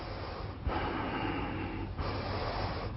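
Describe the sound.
A deep breath in is drawn as a soft, airy, slightly snorting rush of air, offered as a contrast to Ujjayi pranayama. It is quiet and sustained, with a couple of brief dips.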